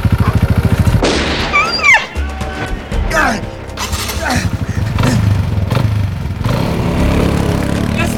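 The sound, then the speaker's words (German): A quad bike racing straight toward the listener, its engine a loud, continuous buzzing roar with shifting pitch that fills the whole stretch, mixed with other dense, busy sounds. “Ein Motorrad? Nein, ein Mann auf einem Quad. Der rast direkt auf uns zu.”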